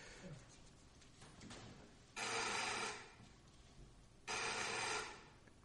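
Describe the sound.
A telephone rings with no answer after a number is dialed, two faint buzzing ring bursts spaced about two seconds apart over a low background hiss.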